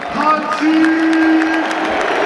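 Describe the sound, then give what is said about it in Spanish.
A football stadium crowd gives a standing ovation, applauding and cheering in a dense, steady roar that swells slightly and holds throughout. “Ovación extraordinaria.”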